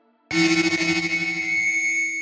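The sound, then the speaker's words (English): Audio feedback loop from a cochlear implant transmitter pressed against a microphone, run through a hearing aid and headphones. It bursts in abruptly after a brief quiet moment and becomes a loud, sustained ringing of steady high tones over a lower hum, with no voices. “pressed her cochlear transmitter to a microphone to create a feedback loop through the combination of hearing aid, microphone, and headphones.”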